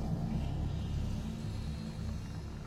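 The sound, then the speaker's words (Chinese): A truck carrying sleeping capsules drives over a stone, its engine a low, steady rumble that holds an even loudness throughout, with no talk. “载着他们的卡车压上了石头，往前纵跳了一跳。”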